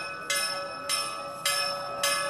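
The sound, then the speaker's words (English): Temple bells ring for evening prayers in Adarsh Nagar, giving four bright, evenly spaced strikes. Each strike hangs briefly with a ringing, shimmering tone. “As the temple bells ring in Adarsh Nagar, people gather for evening prayers”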